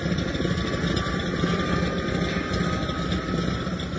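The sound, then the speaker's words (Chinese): A propeller airplane's engine rumbles steadily after being started with a key, its spinning propeller adding a dense, even drone with a faint tonal whine. The sound holds at constant loudness throughout, with no voices. “引擎仿佛有了生命一样的开始隆隆作响，螺旋桨也开始旋转”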